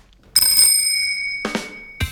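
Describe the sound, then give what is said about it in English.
Bicycle bell marking the start and end of workout intervals: a bright metallic ring with a long sustained tone, followed by two shorter rings, clear and alone without voices. “There's five different intervals, all of which will be marked with a bike bell at the beginning and at the end.”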